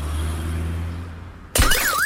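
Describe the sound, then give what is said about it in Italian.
A sudden loud crash as an iPhone 14 Pro Max falls from a window and smashes a car's glass, cutting through a steady low hum and followed by a wavering, repeating alarm-like tone. “Vediamo se l'iPhone 14 Pro Max cade dalla finestra veloce come il Dodge.”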